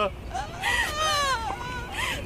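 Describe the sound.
An eight-year-old child cries in wavering, wailing sobs, the pitch bending up and down in long strained cries over a steady noisy background.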